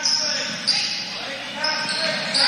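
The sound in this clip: A basketball is dribbled during a high school girls' game. A few soft, thudding bounces sit within steady background noise.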